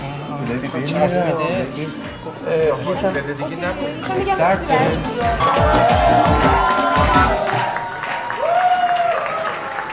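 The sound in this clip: Loud, sustained audience applause with cheering and crowd chatter, voices talking over the clapping throughout.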